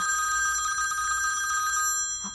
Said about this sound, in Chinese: 代表团电话。